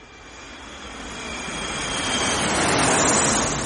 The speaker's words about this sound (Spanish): Un avión lo sobrevuela.